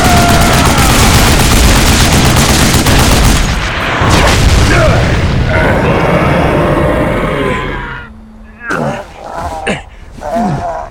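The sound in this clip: Heavy gunfire aimed at a charging mutant lizard creature: a dense, loud, sustained barrage of booming shots lasting about eight seconds, followed by a few quieter, separate bursts.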